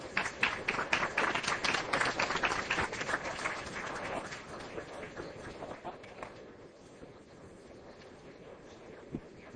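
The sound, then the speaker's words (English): Audience applause welcoming back a panel moderator, a dense round of clapping that holds steady at first, then gradually thins and fades away. “please give a hand and welcome back our moderator, Zane Virgie.”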